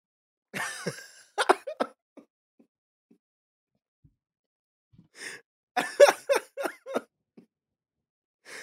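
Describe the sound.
Throat clearing: short, rough, fairly faint bursts in two separate clusters with a quiet gap between them.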